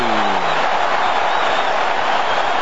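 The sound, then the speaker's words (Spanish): A stadium crowd in Atlanta roars for South Africa during a football match after a penalty call. The cheering is loud and sustained, a dense, steady wall of many voices throughout. “Y la gente está con Sudáfrica, escuchen al público de Atlanta.”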